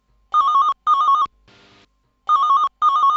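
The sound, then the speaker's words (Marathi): A telephone rings for an incoming call: four warbling electronic rings in two pairs, with a short, softer buzzy burst between them, loud and clear against silence. “चला तर मग घेऊया कार्यक्रमातला पहिला phone.”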